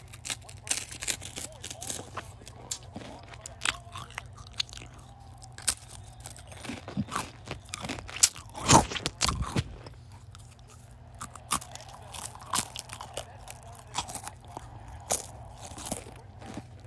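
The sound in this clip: Crunching and chewing of snacks while watching an ice hockey game. Many irregular, crisp crunches and bites run throughout, with one louder burst of crunching midway, over a low steady background hum.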